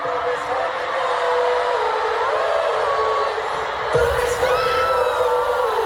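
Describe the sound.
Fans scream and cheer at a Korean pop group's live performance, a continuous high-pitched shrieking crowd that surges louder near the end.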